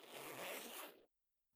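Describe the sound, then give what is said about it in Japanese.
A zipper is pulled down in one smooth, continuous rasp lasting about a second, then stops abruptly into silence. “ほら、チャック下げる。”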